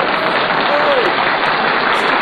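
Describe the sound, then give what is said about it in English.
Audience applause as a guest arrives on a show: a dense, steady wash of many hands clapping that holds at an even, loud level from start to finish without a break. “Just handing out applause breaks to everybody.”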